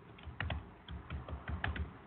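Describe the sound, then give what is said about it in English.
Typing on a computer keyboard comes as faint, quick clusters of light plastic key clicks in an irregular rhythm, with short pauses between bursts. “As I type in WWE World Championship here on Yahoo and Wikipedia and all that.”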